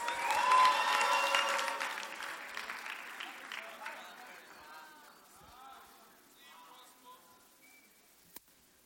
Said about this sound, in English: Put your hands together for a powerful testimony.